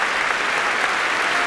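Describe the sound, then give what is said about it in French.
Concert-hall applause greets a young violin finalist after a concerto with orchestra in the Henry Le Boeuf hall of the Palais des Beaux-Arts in Brussels: dense, steady, even clapping from a large audience. “Voilà qui salue le public de la salle Henri de Boeuf ici au Palais des Beaux-Arts de Bruxelles. Il est très applaudi, vous pouvez l'entendre.”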